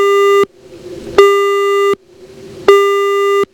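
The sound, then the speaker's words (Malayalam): Telephone busy tone after a caller's line was cut off: three loud, steady beeps of the same pitch, each about three quarters of a second long and separated by short silent gaps, with no talking. “നമ്മുടെ collar കട്ടായി പോയെന്ന് തോന്നുന്നു.”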